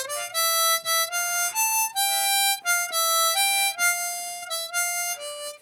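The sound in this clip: A C harmonica plays single notes as a beginner would, with clear reedy tones held one after another in a steady stepwise melody. The notes are loud and even, with short breaks between them and no voices.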